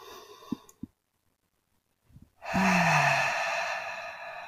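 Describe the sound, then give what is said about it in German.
A deep breath out during a guided relaxation exercise: a long, loud sighing exhale of about two seconds with a faint low voiced tone sliding downward. A couple of small clicks and near silence come before it. “Auf Stufe Nummer 3 noch einmal tief ein- und ausatmen.”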